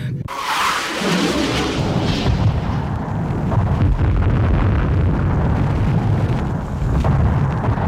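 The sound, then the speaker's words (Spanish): Gunfire and explosions from a space battle between ships in an audio drama: a loud, dense low rumble with repeated sharp blasts and crackles throughout, no voices. “Pero para esto, ya desde antes Amador había comenzado a disparar.”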